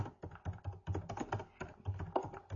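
Typing on a computer keyboard as someone writes a question in a chat. Rapid, irregular clicks and key taps come in short bursts at a fairly quiet level, with no voices.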